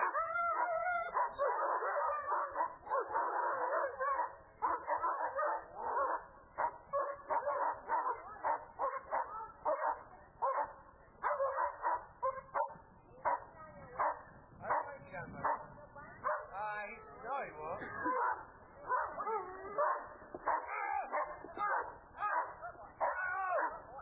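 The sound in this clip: A trained attack dog barks, yips, howls and whimpers almost without pause: dense, loud, high, whining cries with only brief gaps.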